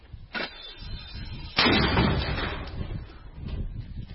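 A mortar battery firing: one heavy, sudden boom that trails off into a long rumbling decay, fairly faint overall.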